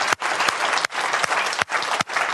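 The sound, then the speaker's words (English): Audience applause honouring mothers: dense, continuous clapping from many hands, loud and even, broken by a few brief dips in volume. “Give yourselves a round of applause. Come on!”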